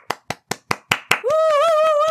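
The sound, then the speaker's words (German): Six brisk hand claps at an even pace, sharp and fairly loud, then a sustained pitched voice that cuts them off. “An dieser Stelle möchte ich bitte Applaus haben für die Überleitung des Monats.”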